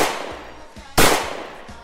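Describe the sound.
Pistol gunshots in a video game: two sharp, loud cracks about a second apart, each trailing off quickly, with fainter thuds between them.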